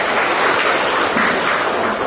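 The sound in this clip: A church audience applauding to welcome a newcomer: loud, dense, steady clapping that fills the whole clip, with no distinct single claps.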